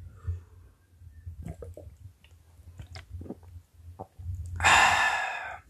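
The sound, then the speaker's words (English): Water being drunk: a few soft, wet gulping sounds over a low steady hum, followed by a loud, breathy sigh of relief at the end. “my mouth was getting dry, so I had to take a little break and drink water.”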